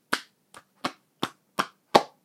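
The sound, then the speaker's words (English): A hand slaps buttocks seven times, each a sharp, fleshy smack in a fairly even rhythm. The second slap is much fainter than the rest, and there is silence between the hits. “And yes, I was just slapping my ass there, you're welcome.”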